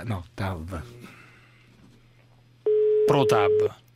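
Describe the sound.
A telephone line tone sounds while a call is placed. People talk first, then a single steady, unbroken beep of about a second starts, with a voice over it.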